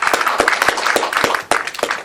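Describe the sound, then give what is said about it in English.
Applause at an organization's meeting for a corporate sponsor: loud, steady clapping from a few pairs of hands, with distinct sharp individual claps and a brief dip near the end. “So I'd like to give a round of applause to Wells Fargo for their assistance.”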